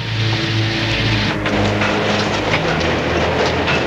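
A passenger train in motion, with a steady, loud rumble and a faint clatter of the cars running beneath it.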